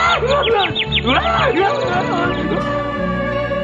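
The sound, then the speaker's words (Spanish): A little bird chirps in quick, high, repeated tweets at the start, followed by lower, warbling tones. “¡Un pajarito!”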